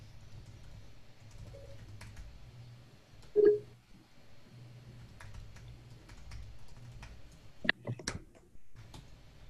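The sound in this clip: Faint, scattered key clicks from typing on a computer keyboard sit over a low steady hum, with a brief burst of quick taps near the end.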